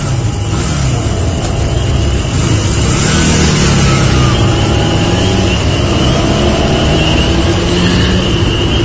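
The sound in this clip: A motorcycle's engine roars as the rider opens the throttle, a dense, loud, steady drone that holds for the whole stretch with no voices.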